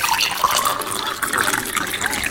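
Water is poured into a glass, a steady bubbling gush with a rising, filling tone that continues for a couple of seconds with no talking.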